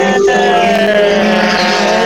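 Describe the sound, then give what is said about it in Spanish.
Race car engines roar at a motor racing event as drivers arrive at the pits. The sound is a dense, loud, continuous drone that never breaks. “Se escucha rugir motores. Ahí está.”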